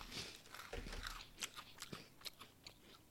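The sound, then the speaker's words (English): Someone bites into a biscuit, making a few faint, crisp crunches and crackles followed by quiet chewing. “You don't have to use the milk, but usually you dip them in milk or tea. Should I dip it? Is that what you're trying to tell me? Have like take a bite without the milk and then take a bite with the milk.”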